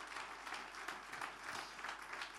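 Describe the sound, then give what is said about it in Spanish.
Applause from an audience at a church celebration service, a steady, dense patter of many hands clapping, faint and continuous without a clear break. “Ese aplauso es de alabanza para el Señor.”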